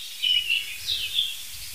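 Blackbird alarm calls: a few short, high chirps scattered across the moment, thin and fairly faint above a low, soft rumble.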